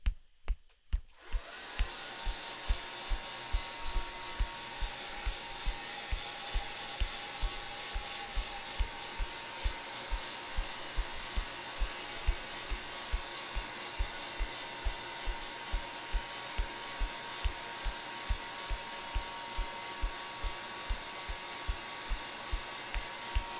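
A hair dryer blows on someone's hair with a continuous, loud, whirring roar that runs for over twenty seconds, marked by a steady, regular low pulsing throughout after a brief quieter start.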